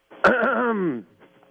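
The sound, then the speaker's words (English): A man clears his throat in one loud, drawn-out, voiced rasp lasting under a second, followed by faint breathy noises. “I don't think a clearing of the throat will do it. I thought we were going to get the real voice as soon as he cleared his throat.”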